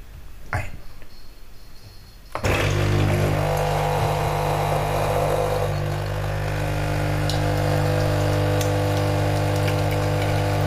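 Engine noise during a gear shift: after a quieter stretch, a loud, steady droning hum with a rough, buzzy edge sets in abruptly and holds at an even level to the end.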